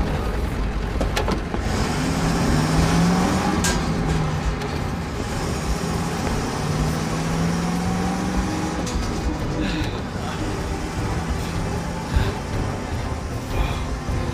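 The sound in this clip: A manual-transmission car drives off with a continuous rumbling engine and road noise. A couple of brief tonal swells rise out of the roar as it pulls away.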